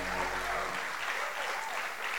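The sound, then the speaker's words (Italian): Applause from a church audience at a Sunday service: dense, steady clapping that holds at an even level throughout, with a low hum at the very start. “Dobbiamo fare un applauso al nostro pastore.”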